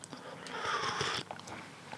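Someone chomps on biscuits, with soft, crumbly crunching and chewing that keeps going steadily and fairly quietly for a couple of seconds.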